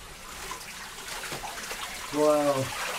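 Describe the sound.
Water runs steadily from a reservoir in the Montenegrin mountains, a soft continuous rushing that stays low throughout, while a voice sounds briefly near the end.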